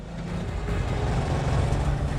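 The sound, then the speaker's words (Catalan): A brown van drives fast through a foggy forest, its engine and road noise forming a dense, low, rumbling drone that stays loud throughout. “La camioneta marró s'allunya. Travessa veloçment el bosc envoltat de boira.”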